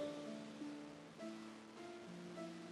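Waves lapping on a beach make a steady, soft, hissing wash that swells and eases, with sustained humming tones held over it.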